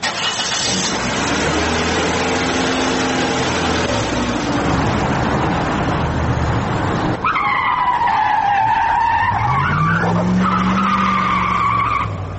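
A car speeding and skidding: a roaring engine runs for several seconds, then high, wavering tire screeches take over, sliding up and down in pitch until the end. No one speaks.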